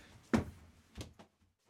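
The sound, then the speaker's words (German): A door is opened after the doorbell rings: a few soft clunks and thumps, one sharper knock followed by quieter clicks, all faint. “Es hat geklingelt. Ich muss mal kurz aufmachen.”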